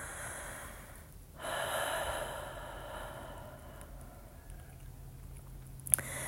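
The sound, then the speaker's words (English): A slow exhale during a guided breathing exercise, a soft, breathy rush of air that swells and then tapers off gradually. The sound is quiet and alone, with a faint click near the end. “And we exhale.”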